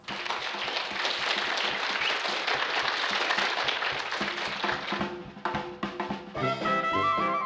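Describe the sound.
A studio audience applauds to welcome a show's host with loud, continuous clapping. Near the end the clapping thins and bright, tonal music enters.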